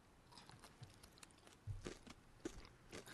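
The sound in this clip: Biting and chewing into an ice cream dessert with a firm top layer and a soft inside: faint, moist crunches and a few sharper bites spread over quiet mouth sounds.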